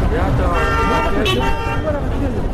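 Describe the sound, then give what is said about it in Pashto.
Cars and rickshaws pass through a crowded market street, with short horn toots over a constant traffic rumble and voices of people nearby. “موټران او رکشي وی او بلې خواته تیریږي.”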